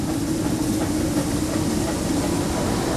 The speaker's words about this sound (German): Und das ist natürlich jetzt unser neuer Vorzeigelok. Äh, hat knapp 800 PS und befördert 105 Personen in 30 Minuten auf den Schafberg. Und jetzt geht's los.